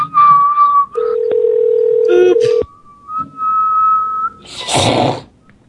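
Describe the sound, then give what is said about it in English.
Whistling by a person trying to hit the high, steady tone used for phone-line signalling: several sustained whistled notes with slight pitch wavers, separated by short pauses, ending with a brief noisy burst. “we all have to be able to whistle 2600 hertz.”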